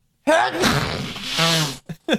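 A person lets out one loud, forceful sneeze lasting over a second, followed by a couple of short, quick breathy sounds.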